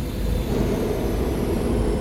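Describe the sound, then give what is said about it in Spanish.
A spaceship schooner lands at an inn's dock with a steady, loud low roar of engines that holds evenly throughout, with no voices. “Jim vio aterrizar una goleta en el embarcadero de la posada”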